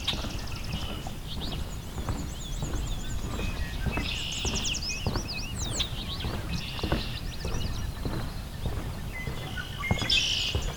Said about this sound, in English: Also, sounds like northern water thrush. It's nearby as well, so that's good.